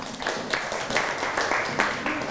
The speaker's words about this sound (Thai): ปรบมือให้กับเพื่อนครับ